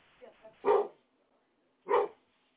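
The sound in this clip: A dog barks twice, loud and sharp, about a second apart, after a few softer low vocal sounds at the start.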